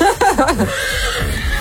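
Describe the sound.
A horse neighs in a quick, quavering whinny with rapid pitch wobbles over the first half-second, followed by lower, rougher breathy sounds.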